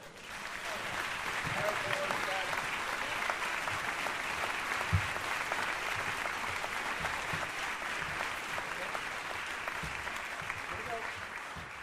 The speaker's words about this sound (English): So without any further ado, I would love for you to put your hands together and welcome Mr. Danny Quintero.